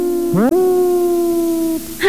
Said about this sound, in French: Et ça, c'est quoi ? Ça, c'est un loup.